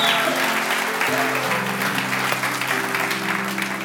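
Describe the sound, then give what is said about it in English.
Applause rises from a church audience welcoming guests during a service, a steady, dense wash of clapping that holds through the whole stretch. “If you give them a huge hand.”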